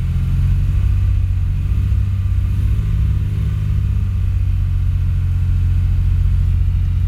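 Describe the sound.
Car engine given light throttle just after the clutch is let out, during warm-up: a loud, steady, low rumble that holds an even level throughout, with no sharp revs.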